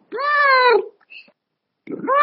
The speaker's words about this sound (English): I think your cat has summed up perfectly for me. Thank you. I'm so sorry about my cat tonight.